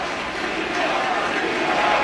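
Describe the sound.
A stadium crowd at a Washington Commanders versus Seattle football game roars in a sustained ovation as a player is carted off the field, with the broad, steady noise swelling slightly toward the end.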